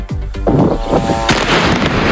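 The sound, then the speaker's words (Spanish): Gunfire and artillery exchanged at night in Lebanon: many sharp, booming reports and cracks in quick, irregular succession, overlapping into a dense, loud rumble. “Este es el sonido de lo que ha pasado esta noche en el Líbano. Ha habido intercambio de fuego entre las dos partes, entre Hezbollah e Israel.”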